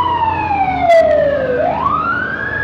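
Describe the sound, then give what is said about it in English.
A loud emergency vehicle siren passes outdoors in Culver City. Its wail glides steadily down in pitch, then sweeps back up, over a low background rumble. “a lot of the sounds are muffled, but when a siren goes by, I just want to give you the scenario where we are.”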